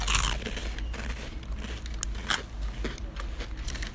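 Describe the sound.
Miel Pops honey cereal is crunched as three pieces are chewed at once, giving several crisp, irregular crunching bursts. The crunching is fairly faint, with no talking.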